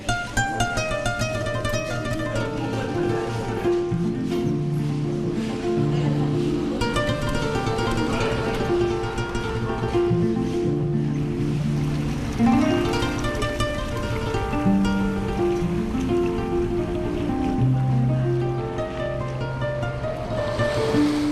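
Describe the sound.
Ocean waves on the shore make a steady, loud, unbroken roar of surf that holds an even level throughout, with no voices.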